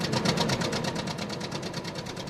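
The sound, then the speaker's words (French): An early motor car engine sputtering, a rapid, regular train of chugging pulses with a rough, buzzy edge, steady in pace and level throughout with no voices. “Je suis réduite en poudre par cette succession de pétarades creuses, plus fortes que la foudre. C'est la première fois que je roule en auto”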